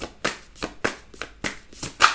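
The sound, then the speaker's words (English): A Gypsy card deck being shuffled, producing a rhythmic series of crisp, papery riffling bursts at a steady pace, each rising sharply and fading quickly. “Let me take a card from the Gypsy deck. December energy for Taurus, please. December energy for Taurus. May I have a card, please?”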